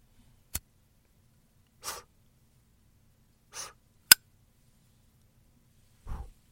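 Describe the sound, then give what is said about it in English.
A cigar being lit: a few sharp clicks and short breathy bursts, spaced apart by quiet gaps, with no talking. “I'm going to make it even worse for myself, but a little bit better by lighting my Stogie of the Week.”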